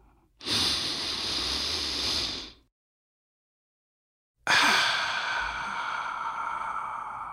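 A slow, deep breath: a long, steady rush of breath for about two seconds, a silent pause, then a second long, airy breath that trails off gradually.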